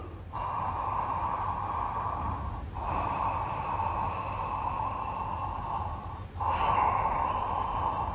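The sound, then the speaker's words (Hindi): Deep breaths drawn in during a breathing exercise: three long, steady, airy inhalations with brief pauses between them. No one talks over them. “फिर से गहरी सांस ले,”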